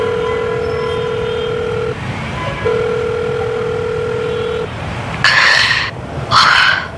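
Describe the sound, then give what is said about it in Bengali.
A telephone call being placed: a steady dial tone, briefly interrupted once, then two brighter buzzing bursts of ringing tone near the end. “রাস্তা পার হয়ে সে একটা phone করল।”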